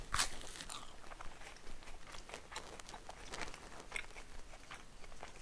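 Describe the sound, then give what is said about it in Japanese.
Crunchy biting and chewing of garlic toast during a lunch meal, with many crisp, uneven crunches close together and no talking. “ガーリックトースト美味しいよでもさすがにトースト4枚は多いなまだいっぱい残ってんだけどね”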